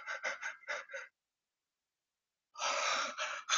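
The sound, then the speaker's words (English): A voice imitates a long, drawn-out yawn: a few short breathy bursts, a silent pause, then a sustained, loud, airy exhale. “And when he yawns, he'll yawn for like a minute long, bro. He'll be like,”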